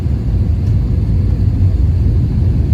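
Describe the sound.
Steady low rumble inside an airplane cabin during landing. A dense, constant engine drone holds throughout without any talk.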